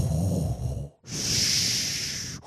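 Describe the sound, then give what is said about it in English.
A voice imitates heavy, mechanical breathing, giving two long breaths with a brief pause between them. The first is low and rasping, and the second is a loud, steady hiss. “The worst part is, oh, you know he's coming when you hear his breathing.”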